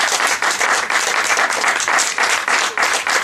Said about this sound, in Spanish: Dale un fuerte aplauso al Señor nuevamente porque Él es digno,